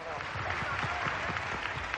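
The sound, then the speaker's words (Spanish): Crowd applause and cheering give a big ovation as a couple departs during a visit in Texas. The clapping is dense and continuous throughout, with crowd voices mixed in at a steady, moderately loud level. “La pareja se despide ante una gran ovación, entre vítores de Viva Jackie, Viva Kennedy.”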